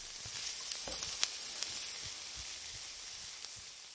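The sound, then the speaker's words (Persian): Meat sizzles in its own rendered sheep tail fat with no added oil, a faint, steady hiss broken by a few sharp crackles and pops. “الان بهش روغن نمیزنم، میخوام گوشت توی دنبه خودش سرخ بشه که اون مزه اصلی گوشت حفظ بشه.”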